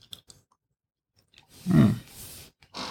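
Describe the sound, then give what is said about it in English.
Crunchy chewing of a cookie during a wine tasting: a few faint clicks, then a loud, low, crunchy burst of chewing that continues briefly and ends with one more short crunch. No voices. “Gonna taste it with this cookie. Part of this cookie.”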